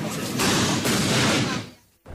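Fireworks explode, tied to an international fireworks competition in Donostia: a dense, loud wash of crackling booms lasts about two seconds, then fades briefly before the noise returns.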